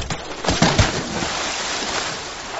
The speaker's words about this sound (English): Mark lifted a huge boulder and dropped it onto the ice.